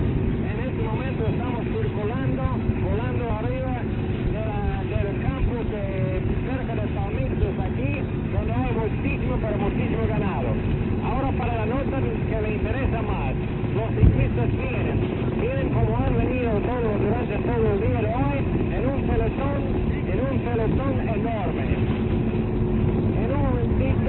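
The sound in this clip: Airplane engine of a 1946 Mejoral advertising plane, a continuous muffled drone that stays steady throughout, with voices running over it.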